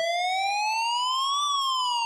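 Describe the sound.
An ambulance siren wails loud and alone, a single bright tone that climbs slowly and then dips slightly near the end.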